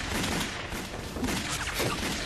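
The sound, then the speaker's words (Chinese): A loud volley of Type 38 rifle fire from a squad of Japanese soldiers: a dense, continuous crackle of overlapping shots with no clear gaps, steady in strength throughout. “枪声不对啊，是鬼子的三八大盖。”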